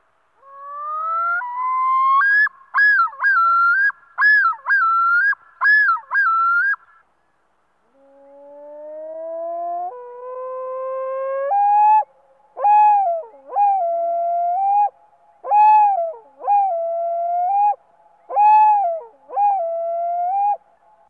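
A loon's yodel call, first at normal speed and then slowed to half speed. Each version opens with a long rising wail that leads into a series of repeated two-part whistled phrases. The slowed version sounds deeper and more drawn out.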